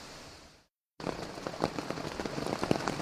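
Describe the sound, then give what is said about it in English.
Rain patters on a camping tent in the Smoky Mountains of North Carolina. The sound is a soft, dense, steady crackle of many small drops, heard alone and resuming after a brief moment of silence. “So it's almost 9 o'clock on day two, and that sound is the rain that's hitting my tent.”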